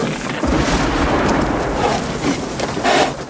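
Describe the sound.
Thunder rumbles through a heavy storm of steady, dense rain. The low booms swell and ease over the constant wash of rainfall.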